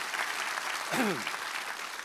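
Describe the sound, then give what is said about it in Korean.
Applause from an audience at a special Holy Week dawn prayer service in a church: steady, dense clapping throughout, with a brief voice rising over it near the middle. “한번 감사와 격려의 박수 한번 드리겠습니다.”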